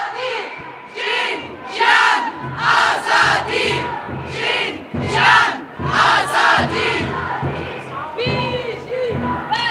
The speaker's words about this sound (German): ihr hört, verschiedenste Parolen werden da skandiert an der heutigen feministischen Demonstration